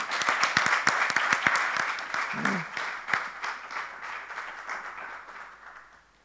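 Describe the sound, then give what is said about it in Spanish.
Dense, lively applause from an audience at a testimonials gathering starts loud and fades gradually over about six seconds. “Muy bien, un aplauso para Graciela.”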